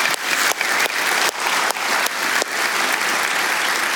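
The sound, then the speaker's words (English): An audience in a First Baptist church in Cleveland, Tennessee, claps to welcome a guest, loud, dense, steady applause lasting throughout with no pause. “I want you guys to put your hands together and give her a big First Baptist Cleveland welcome.”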